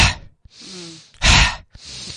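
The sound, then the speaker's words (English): Forceful breaths of a fire-breath exercise, with each breath in followed by a strong forced breath out. About four breathy gusts come in quick succession, the loudest a harsh rush near the middle. No talk is heard. “If you do something that's called a fire breath, which is breathing in, and then as you breathe out, it's really quite a forced out breath. So it's a breath in, and then...”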